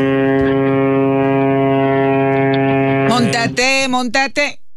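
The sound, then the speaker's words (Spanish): A ship's horn sounds one long, loud, steady blast, a deep droning tone rich in harmonics that holds for about three seconds before cutting off, followed by people talking. “Ese aviso del barco hasta me asustó”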